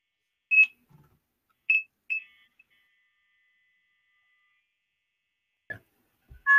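Telephone call-failure tones play after a dialed call does not go through: a few short, high electronic beeps, then a faint sustained tone, then silence and a few soft clicks, with no talk.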